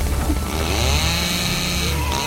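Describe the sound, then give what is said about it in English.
Chainsaw held into a tree and shaken: a rough, loud, continuous engine snarl over a deep droning buzz, unbroken for the whole moment. “holds the chainsaw into a tree, shaking it relentlessly as the monster slips away”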